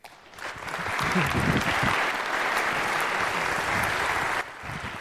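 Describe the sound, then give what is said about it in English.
Audience applause welcoming a speaker to the stage at a morning talk: dense, steady clapping that swells in within the first second, holds at an even level and eases slightly near the end. “I'm always worried about people clapping before I speak, so I prefer you to clap afterwards”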